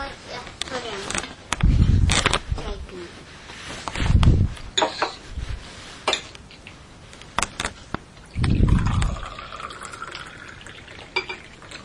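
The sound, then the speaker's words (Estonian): Pouring a drink into a glass: liquid splashes with a faintly rising tone as it fills, among scattered clinks and clatter, with people talking nearby. “Nii, kallan sulle.”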